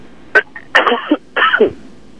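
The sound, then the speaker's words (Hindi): Coughing from a singer who has just performed while unwell: a short hack followed by two louder, rough, rasping coughs in quick succession, with no other sound. “अब खांसी आई।”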